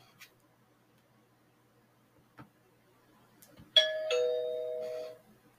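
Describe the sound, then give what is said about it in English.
A doorbell rings with a two-tone chime: a higher note, then a lower note that holds and fades. A few faint ticks come before it in an otherwise quiet background. “When they ring the doorbell,”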